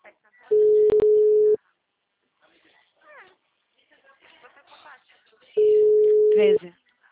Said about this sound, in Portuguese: A ligação acho que caiu. Fiquei aqui na linha esperando. Aí ficou muito mudo.